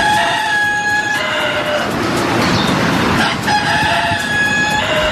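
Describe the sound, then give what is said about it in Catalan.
Two roosters kept by a neighbour in Andalusia crow loudly in long, sustained calls. Two drawn-out crows are clear, with a rough noisy stretch between them. “es insoportable que una persona tenga dos gallos ahí metidos. Todos los días y toda la noche,”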